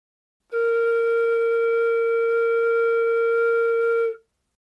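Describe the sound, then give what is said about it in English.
A single note blown on a flute mouthpiece alone, without the rest of the flute: a pure, steady tone held at one pitch for about three and a half seconds, starting and stopping cleanly. “I'm going to play for you, Rob, just the sound of a note played on just the mouthpiece of the flute.”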